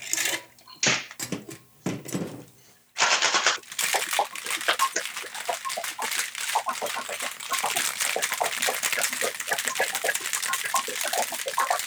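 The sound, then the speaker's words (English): Cocktail shaken in a shaker tin after the ice is dumped and the liquid poured back: a few loose knocks and rustles, then loud, rapid, steady rhythmic shaking that runs without a break to the end. “Get rid of your ice and put the liquid back in your shaker. We're going to shake it again.”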